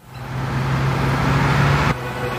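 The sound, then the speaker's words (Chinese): Bus driving past on a road: a loud engine rumble with a low steady tone swells and holds for about two seconds, then drops off abruptly. No voices. “快看，公交车！”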